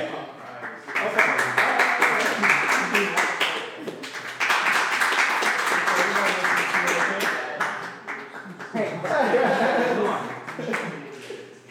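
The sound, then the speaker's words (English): An audience applauds argument number one with a long stretch of dense clapping that swells in waves, dips briefly twice and then picks up again. “Let's get a round of applause for argument number one.”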